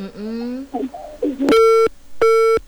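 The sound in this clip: A phone busy tone as a caller's line drops during a live call-in. A voice speaks briefly, then two long, steady, loud beeps follow with a short gap between them.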